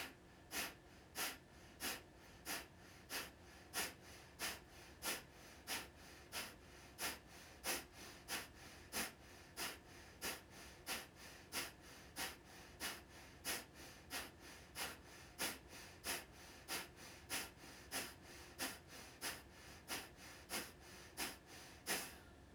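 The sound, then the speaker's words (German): Kapalabhati yoga breathing: many forceful, short exhalations through the nose as sharp puffs at a quick, even pace. The breathing is faint and no one speaks. “Wir beginnen mit der ersten Runde Kapalabhati. Und beginne ausatmen stoßweise.”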